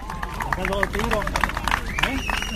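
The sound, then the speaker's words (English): Supporters cheer and clap outside a prison gate as jailed pro-independence ministers are released in Spain. Crowd noise and rhythmic clapping run continuously under a speaking voice. “Well, you can hear the supporters cheering because right now the ministers are finally coming out of prison and they're coming towards the prison gates.”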